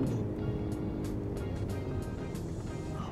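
A Mercedes CLE coupe being driven, heard as a steady, fairly quiet low engine drone and road rumble that holds an even level throughout.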